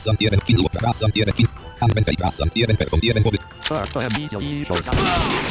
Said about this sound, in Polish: Właśnie użyłem umiejętności tej, że mogę dwa razy szybko strzelić.